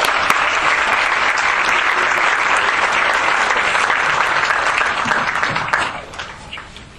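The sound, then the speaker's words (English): An audience gives a speaker a hand, loud, dense, sustained clapping that holds evenly before tapering off in the last second or so. “All right, Jay, welcome. Let's give him a hand, guys.”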